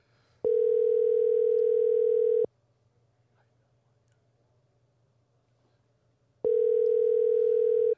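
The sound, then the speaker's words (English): Phone call tone from a call placed by a voice assistant: two long, steady, mid-pitched tones of about two seconds each, separated by a roughly four-second silence. Both are loud, with no talk. “Siri doesn't want to talk. No, Siri can't dial and talk.”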